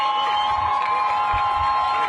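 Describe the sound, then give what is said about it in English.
A crowd outside cheers as a helicopter arrives carrying four released female Israeli soldiers held as hostages, producing a continuous, even roar of many voices with no clear breaks. “The crowd outside cheered when the helicopter arrived.”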